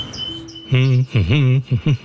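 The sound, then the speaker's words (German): Birds singing in an aviary, with faint high chirps at first and then a few loud tonal calls with rising and falling glides, ending in short, rapid notes. “Und man hat den Eindruck, dass auch der Vögel das Herz aufgegangen ist. Statt bewegungslos in der Voliere zu sitzen, wird jetzt geschafft, geflogen und gesungen.”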